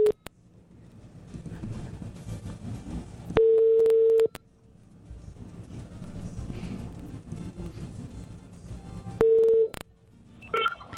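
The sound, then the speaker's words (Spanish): Outgoing telephone call ringing on the line: two long, steady ringback tones separated by a stretch of faint line noise, then a short, higher beep at the very end. “Bueno, marquemos a este oyente.”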